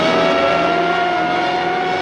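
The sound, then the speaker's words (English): Engine roar of a bulbous black police cruiser racing up beside a passenger bus on a long causeway between two islands. A loud, steady rumble with a constant hum runs throughout, with no voices. “a bulbous black police cruiser races up beside a passenger bus”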